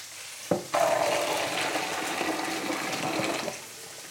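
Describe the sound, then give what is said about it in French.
Water rushes as cooked peas, boiled for about a quarter of an hour, are drained. A brief knock is followed by a steady splashing pour lasting about three seconds, then it tapers off with a small clink at the end. “Mes petits pois sont cuits. Après un bon quart d'heure de cuisson, je viens les égoutter.”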